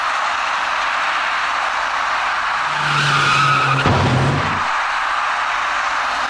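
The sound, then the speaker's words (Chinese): An electric bicycle skids on a wet road after rain and slides into the right rear of a small car. Steady broad road noise runs throughout, a tyre squeal swells partway through, and a sharp hit lands near the end of the squeal. “没能控制好车身，滑出去的电动自行车撞到了那辆小客车的右后部车身”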